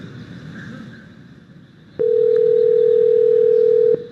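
Telephone ringing on a call to a small restaurant: a quiet noisy stretch gives way to one loud, steady, low-pitched tone that holds for about two seconds and then stops.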